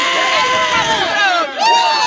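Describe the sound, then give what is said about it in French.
A crowd cheers and shouts in joy, a loud wash of high excited voices with wavering yells. It dips briefly near the middle, then surges back. “Le corps a disparu un peu plus tard, sans doute emporté par la foule, venue manifester sa joie”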